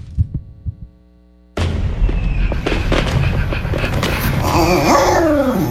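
Fireworks explode: a few low thuds sound first, then there is a brief hush, and then a loud, dense barrage of booms and sharp crackles continues without letup to the end.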